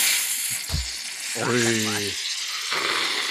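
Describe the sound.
Non-alcoholic beer fizzing over from a shaken bottle, a steady bright hiss running throughout, with a brief voiced exclamation in the middle.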